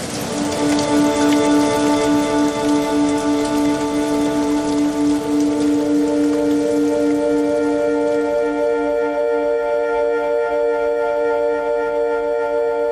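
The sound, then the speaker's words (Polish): Heavy downpour of rain, a dense, loud, continuous hiss that holds steady across the whole stretch, with a sustained humming tone running underneath. “Zaczyna się prawdziwa ulewa. Woda na obiektywie kamery.”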